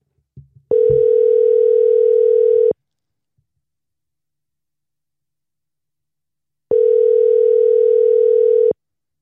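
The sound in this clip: Telephone ringback tone plays while a call waits for an answer: two long, steady, loud tones, each lasting about two seconds, separated by a long silent pause, with a brief faint noise just before the first.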